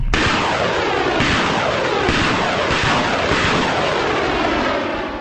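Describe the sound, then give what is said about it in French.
Heavy and light weapons gunfire during army fighting in North Kivu, Democratic Republic of the Congo: a continuous, loud barrage of rapid shots punctuated by several heavier booming blasts, with no break throughout. “La détonation des armes lourdes et légères que vous attendez est une réaction rapide des forces armées de la République démocratique du Congo qui poursuivent l'ennemi dans toutes les directions.”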